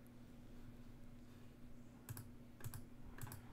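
Keys clack on a computer keyboard as a command is typed into modelling software: three short, faint bursts of rapid clicks over a low, steady hum.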